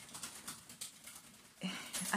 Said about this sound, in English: sorry, my bird's having a bit of a flap in its cage.